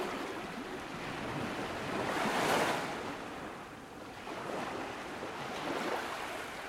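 Sea waves breaking by a small fishing village facing the open sea, a soft, rushing surf that swells and recedes in slow surges, with faint wind noise.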